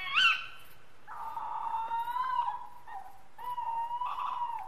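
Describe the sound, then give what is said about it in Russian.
An owl cries outside a window: a sharp high call, then long, drawn-out, wavering tonal cries that repeat a few times, heard alone without talk. “За окном слышался крик совы.”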